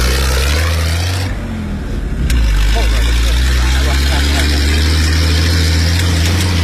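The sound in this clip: Desert dune vehicle with a rear-mounted engine and four wheels, charging across sand. The engine gives a loud, steady, low droning rumble that fills the whole clip with little change.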